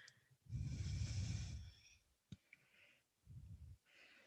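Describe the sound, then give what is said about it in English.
A person exhales audibly while bowing forward in a yoga flow. A long, airy breath lasts about a second and a half, followed by a soft click and a shorter second breath, all faint. “Bow forward, we breathe out.”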